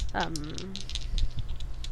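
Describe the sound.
Rattling clatter of two ordinary dice rolled by hand, a run of quick light clicks and knocks after a brief voice at the start.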